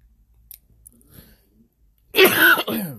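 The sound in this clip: Harsh throat clearing and coughing from a dry throat: two loud, rasping bursts close together near the end, after a stretch of near silence with a few faint clicks.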